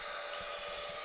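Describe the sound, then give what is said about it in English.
Coffee beans are dumped into a preheated, running Fresh Roast coffee roaster. A short rasping rattle of the beans rises briefly over the machine's steady fan hum. “All right, we are at 2 minutes and I'm gonna dump in the beans and start our timer.”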